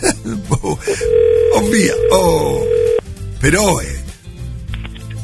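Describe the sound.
Telephone line tones as a radio host phones a listener, a steady held tone lasting about two seconds amid voices and other sounds.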